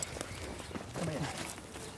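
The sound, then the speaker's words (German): Donkey hooves on dry, nearly grassless ground as one animal trots back and forth while the others walk calmly: a run of light, uneven thuds and clops beneath talk. “Die Esel haben begriffen. Alle laufen sie sehr entspannt, bis auf Christoph. Der flitzt hier hin und her.”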